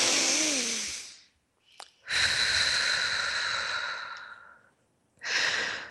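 Deep, slow breathing: three long, loud airy breaths separated by short pauses, the middle one the longest and the last cut off at the end, with no talking over them.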